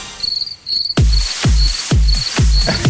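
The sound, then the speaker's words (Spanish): Crickets chirp in a steady, high-pitched series of short, evenly spaced pulses, with regular low thuds joining the rhythm partway through. “Aparecen los grillos. Los grillos.”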